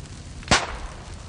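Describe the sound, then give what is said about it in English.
A discarded ammunition round in a burning brush pile goes off with one sharp, loud pop that cuts above steady background noise. “Sounds like somebody discarded some rounds in that brush pile back there. Probably target shooting down here.”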